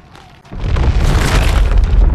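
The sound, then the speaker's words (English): Deep, roaring rumble of an earthquake tremor, or of a building settling as fire consumes it, rising suddenly after a brief quiet stretch and holding loud and steady to the end, with no voices. “Quake. Could be just the building settling as a fire consumes it. That felt like a quake to me.”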